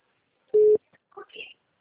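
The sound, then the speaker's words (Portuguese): A telephone sounds one short, steady, mid-pitched beep to signal an incoming call, with a few faint, brief sounds after it. “Peraí, tem ligação.”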